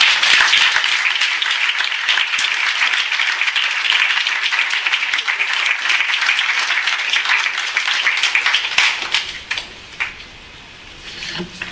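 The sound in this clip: Audience applause welcoming a speaker at an event in Brisbane, dense and steady clapping that fades away toward the end.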